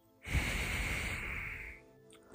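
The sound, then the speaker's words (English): A deep breath during a guided breathing exercise, heard as one long, steady airy rush with no talk over it, soft and fading out at the end. “On the count of three, breathe in with me. 1, 2, 3. Breathe in. Breathe out.”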